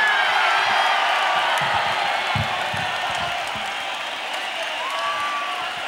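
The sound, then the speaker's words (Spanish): An audience at a live metal concert applauds and cheers for a guitarist, a dense, loud and steady roar of clapping and shouts, with a brief whistle near the end. “Quiero que deis un fuerte aplauso porque ha venido del otro lado del Atlántico a Walter Giardino.”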